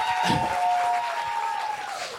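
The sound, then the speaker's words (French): Audience applause at a fan evening during a break: moderate, textured clapping with a sustained steady tone running through much of it, louder early and easing toward the end. “Vous avez le droit d'applaudir.”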